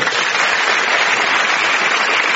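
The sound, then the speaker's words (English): A studio audience at a comedy show applauds two comedians with continuous, dense clapping that stays even throughout. “So a promising round of applause then for John and Sarah.”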